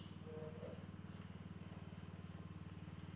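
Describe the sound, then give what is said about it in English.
A running water pump gives off a faint, steady mechanical drone with a fast, even low throb that holds unchanged from start to finish. “That is the sound of the water pump.”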